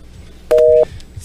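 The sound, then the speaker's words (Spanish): A single short, steady telephone tone sounds on a call-in line after a dropped call. It is mid-pitched, lasts about a third of a second, and stands out over a low background hiss. “Se nos fue esa llamada, pero me dice Otto”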